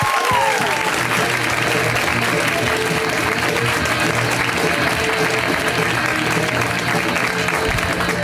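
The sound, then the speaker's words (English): Audience applause for a comedian at a comedy show, a steady and dense wash of clapping that holds at an even loudness for the full length without breaks. “Let's hear it right now for Mr. James Fritz. Give it up for James.”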